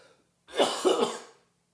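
A person coughs and clears their throat in one short burst of about a second with two rough pushes, on its own against silence.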